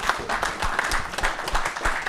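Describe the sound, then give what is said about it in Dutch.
Applause from a group at a meeting: a steady patter of many hands clapping, even in loudness from start to finish. “Als het verder is, wou ik een applaus vragen voor dit.”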